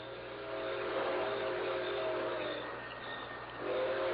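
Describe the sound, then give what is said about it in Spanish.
Train approaching, a quiet, steady low rumble with faint horn-like tones, swelling, easing briefly, then swelling again. “Por ahí viene el tren.”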